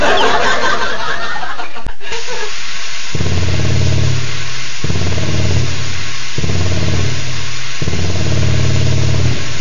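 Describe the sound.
Engine revving in an Aral fuel advert: four sustained bursts of deep, harmonic engine roar, each held for over a second with short gaps between, following a brief noisy opening.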